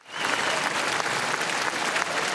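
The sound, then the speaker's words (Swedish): Crowd cheering and applauding as Norway's new king and queen wave from the royal palace balcony after the late king's funeral; dense, unbroken clapping and roar at an even level throughout. “När Norges nya kungapar Håkon och Mette Marit vinkade från slottets balkong efter kung Haralds begravning förra veckan så jublade folkmassan.”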